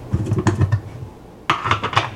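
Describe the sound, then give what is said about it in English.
Lid of a coconut oil jar being unscrewed: a few gritty scraping and clicking twists in two bursts with a short pause between, moderately loud and with no talk. “But let's get some coconut oil out. Unscrew the cover.”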